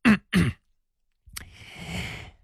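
A cough of two short, sharp bursts in quick succession, followed after a pause by a steadier stretch of low background noise.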